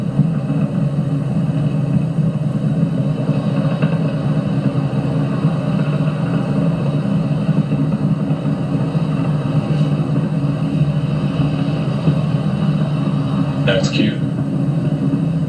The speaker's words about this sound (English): Falcon 9 has cleared the tower and is currently throttling down to prepare for Max-Q